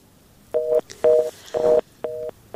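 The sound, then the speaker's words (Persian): A telephone line tone after a call is cut off: a series of evenly spaced electronic beeps, each a short steady two-note tone with clear silence between them. “خب به هر حال تماسم قطع شد”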